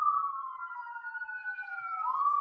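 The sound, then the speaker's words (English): An emergency vehicle siren passes outside a building during a morning worship service. It is a steady, moderately loud wailing tone with no other sounds, sagging slowly in pitch before rising again near the end. “We never have a siren go by when we have worship in our building, but we do this morning.”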